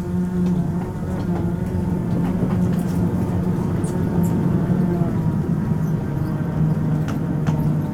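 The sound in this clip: Train running in a train-driving video game as it arrives at a station on the left track, a steady rumbling drone with a low hum that holds continuously throughout, without voices.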